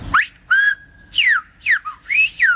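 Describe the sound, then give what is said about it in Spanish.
Silbo Gomero, the whistled language of La Gomera, demonstrated at the Torre del Conde in San Sebastián: many sharp, high whistled phrases with swooping pitch glides and one held steady tone, heard alone without speech. “venimos a hacer una exhibición de silbo”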